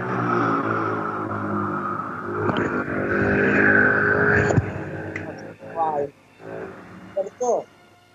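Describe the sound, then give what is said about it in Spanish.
A passing motorcycle, heard through a covered microphone, makes a muffled engine drone that swells for a few seconds and then cuts away, followed by bursts of talk. “Tapé el micrófono porque Pasó una moto, por caso. Ah, una moto.”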